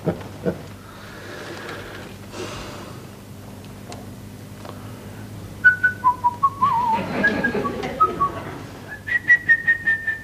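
A person whistles a tune. A quiet stretch of faint background sounds comes first, then a run of short, clear, high notes, ending in quick repeated notes over a low hum.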